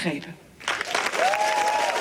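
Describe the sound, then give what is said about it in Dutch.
Large applause from an audience after a speech on a political party, a dense patter of clapping that swells after a brief lull, with voices mixed in. “En daarop volgde een groot applaus”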